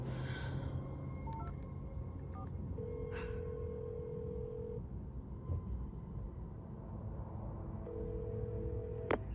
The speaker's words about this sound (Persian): زنگ بزن.